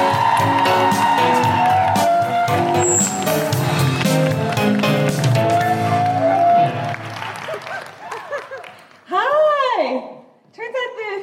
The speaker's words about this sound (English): Put your hands together and make incredible Guilty Feminist Birmingham welcoming noises for the wonderful Catherine Bohart.